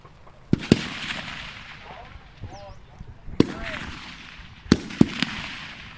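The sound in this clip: Gunfire cracks across a military shooting range at a national training centre, with several sharp, loud shots in irregular clusters separated by short pauses, each followed by a brief echoing tail.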